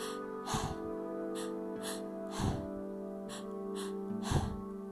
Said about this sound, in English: which feels like it's coming from your chest, and the second inhalation will come from your stomach, and then you will exhale. It sounds a little bit like this.